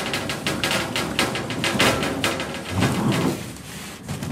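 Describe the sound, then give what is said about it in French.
A cart loaded with mineral water and soda bottles is pulled along a rail, giving a loud, continuous rattling clatter with rapid, irregular knocks and jangles. “Donc là, on tire un chariot de bouteilles d'eau minérale et de Fanta.”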